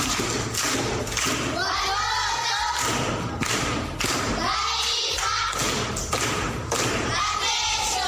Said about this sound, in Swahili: Makofi kwa mjomba.